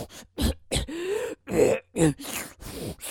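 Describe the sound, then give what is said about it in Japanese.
Coughing and throat clearing after choking on a strong smell, heard as a series of short, hoarse, breathy bursts mixed with gasps and groaning, strained sounds, separated by brief pauses. “あーむせるむせる”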